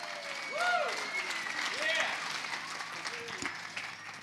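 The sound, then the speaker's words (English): An audience at a Sunday service applauds an engaged couple, a steady patter of clapping that continues under a man's speaking voice. “Daniel and Cassie got engaged. Let's give them a hand.”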